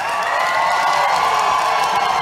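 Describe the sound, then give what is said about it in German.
Press audience at the Berlin Volksbühne greet Depeche Mode's arrival on stage with dense, continuous cheering, whoops and applause that hold at a loud, even level throughout. “Sie werden von den anwesenden Presseleuten begeistert begrüßt. Es sind Dave Gahan und Martin Gore von Depeche Mode.”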